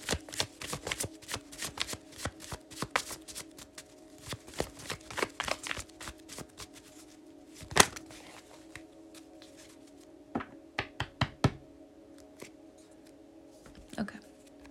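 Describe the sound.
Tarot cards being shuffled and drawn: quiet papery flicks and riffles in uneven bursts, with occasional sharper snaps as single cards are slapped down.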